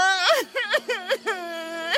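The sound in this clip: Whimpering and crying from a small firefly character who has lost her light, in a children's story. A few high, wavering sobs rise and fall in pitch, voiced alone by a performer.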